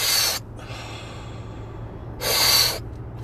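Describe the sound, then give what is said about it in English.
Two forceful, breathy rushes of air from a deep-breathing exercise done lying or sitting, each about half a second long and separated by nearly two seconds of quiet, the second slightly longer and louder. “forceful inhalation and then a half an exhalation, or just kind of let the exhalation proceed.”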